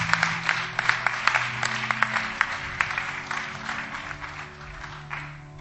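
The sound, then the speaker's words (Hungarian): Audience applause thanking a speaker after a teaching session: a dense, steady wash of clapping from many hands that holds for several seconds and eases slightly toward the end. “Szeretném, hogyha most egy nagy tapsal megköszönnénk Márknak ezt a fantasztikus tanítást.”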